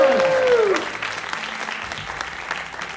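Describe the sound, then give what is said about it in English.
An audience at a live comedy show breaks into applause, steady loud clapping throughout, with a brief voice sliding down in pitch at the start before the clapping carries on alone. “Applause, applause, applause, applause, applause,”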